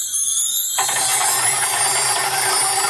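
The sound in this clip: A prize wheel spinning during a radio draw for a Lenovo tablet. After a short lead-in, a fast, continuous ratcheting clatter of ticks starts abruptly and runs steadily and loudly to the end.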